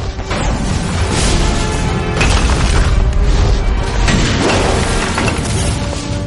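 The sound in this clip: Explosions go off on a rooftop while agents run through them: loud, dense booming and crashing with shattering debris, sustained without a break from start to finish.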